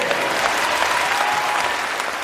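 Dense, steady applause from a crowd tied to an Australian election campaign, a continuous wash of clapping that holds at the same loudness throughout.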